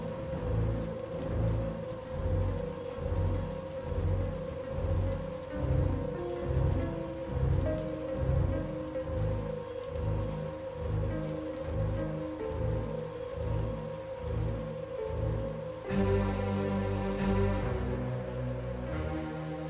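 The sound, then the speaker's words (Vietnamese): Heavy rain pours down in a thunderstorm, a dense, continuous wash of rain noise over repeated low, rolling thunder rumbles that pulse throughout and turn brighter and harsher near the end. “Trong cái màn mưa giông sấm chớp liên hồi đó”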